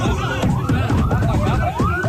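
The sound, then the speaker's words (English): Ambulance siren as the vehicle rushes an injured child to hospital after a school roof collapse in Peshawar, Pakistan, with repeated sweeping wails over a dense background of voices and noise. “an ambulance rushes an injured child to hospital”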